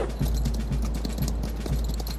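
Hooves of a horse being ridden clip-clop in a steady, even rhythm, low thuds repeating about twice a second over continuous background noise.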